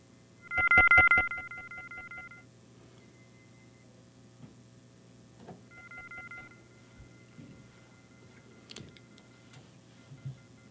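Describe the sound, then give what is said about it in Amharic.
Telephone line tones on a dropped radio call-in: a loud electronic tone burst lasting under two seconds, then a fainter, shorter tone burst later on. Faint ticks and a low hum run underneath. “አድማጭ እንግዲህ ስልኩ ተቋርጧል መሰለኝ፣ መልሰው ይደውሉልን።”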